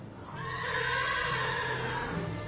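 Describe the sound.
A warrior's horse neighs in one long, loud whinny, a strained harmonic cry that swells and holds steady before easing slightly at the end.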